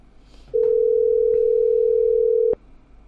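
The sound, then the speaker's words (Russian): A steady, unbroken telephone dial tone plays while a number is being called. It is a single mid-pitched hum lasting about two seconds, starting and stopping abruptly, with faint clicks and no voices. “Набираю Расиховичу, надеюсь, он за жену хоть слово скажет.”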